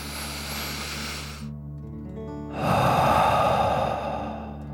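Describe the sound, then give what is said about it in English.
A deep breath drawn in and then let out through the mouth: a quieter intake, a brief pause, then a longer, louder breathy exhale that gradually fades. “Ready? Deep breath in and out.”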